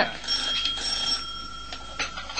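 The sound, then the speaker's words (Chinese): A telephone rings with a steady, high electronic trill that continues unbroken at moderate volume. “啊，电话啊，听电话睇下边个打嚟噶啦。”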